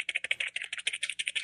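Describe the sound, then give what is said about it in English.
A prize wheel spinning, giving a rapid, fairly even run of many sharp, light clicks at moderate to low volume. “Let's spin that Wheel of Destiny and see where we land.”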